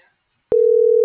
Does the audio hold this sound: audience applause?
no